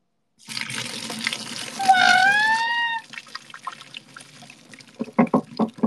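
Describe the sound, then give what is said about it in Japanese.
Hot water drained off boiled soba noodles: a rushing, splashing pour lasting about two and a half seconds, then a few uneven clattering knocks as it ends. “そばの湯切りの音聞こう、湯切りの音。みんな静かに。静かにしてください。今から湯を切ります。”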